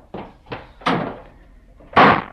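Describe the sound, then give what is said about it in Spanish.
A door is slammed shut during a heated family argument: four sharp wooden thumps in quick succession, the last the loudest and heaviest. “Y Elisa dio, sí, un portazo. También esta vez dio un portazo.”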